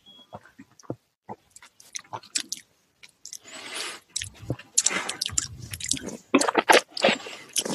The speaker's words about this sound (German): wie schmeckt dir der Wein? Äh, ich weiß es nicht, ich habe noch nicht getrunken, aber mache ich jetzt.